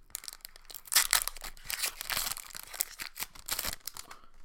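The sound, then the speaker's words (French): Crinkling and tearing of a Magic trading card booster pack wrapper from a Dungeons & Dragons expansion: many dense, rustling crackles over a few seconds, with no voices. “on commence tout de suite cet épisode avec un opening de booster de cartes magiques.”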